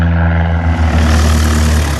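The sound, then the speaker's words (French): A small plane's engine at takeoff on a half-hour flight between the Gard and Provence: a loud, steady droning hum with strong low harmonics, heard alone without voices. “Départ pour une demi-heure de vol entre le Gard et la Provence.”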